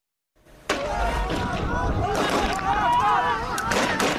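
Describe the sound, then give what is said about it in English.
Gunfire as Yemen's military trades fire with Iranian-backed Houthi rebels: a loud, dense, continuous roar of shots that starts abruptly and carries on, with voices mixed into the din. “That is Yemen's military trading fire with the Iranian-backed Houthi rebels.”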